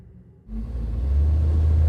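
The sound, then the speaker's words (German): Low engine rumble of an ambulance driving down a mountain, starting abruptly after a quiet half second and holding as a steady, deep drone that grows slightly louder. No voices. “Der Krankenwagen fährt den Berg von Shuksong hinunter.”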